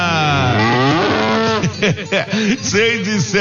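A cow moos at morning milking time. One long, loud, drawn-out low moo with rich harmonics breaks into shorter, choppy lowing toward the end.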